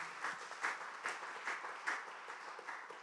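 Congregation at a church service applauding, with quiet, steady rhythmic clapping whose swells recur at a regular pace throughout.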